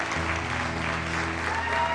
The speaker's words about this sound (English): So I want you to just give another hand clap for TJ.